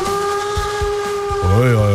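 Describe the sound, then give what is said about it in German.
Steam locomotive whistle: a sustained harmonic tone over rhythmic low chuffs, then a louder second blast whose pitch bends up and back down. “Hast du uns heute eine Lokomotive mitgebracht oder was ist hier los?”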